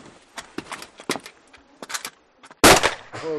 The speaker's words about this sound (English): Norbert fires his rifle in the air to ward off the bear.